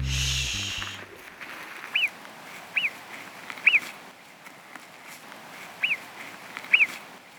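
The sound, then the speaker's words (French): A marmot gives five brief, sharp, high-pitched whistling calls, spaced irregularly over several seconds and fairly faint against a quiet hiss. “Bravo aux personnes qui se comptent sur le doigt d'une main qui ont reconnu le son de la marmotte.”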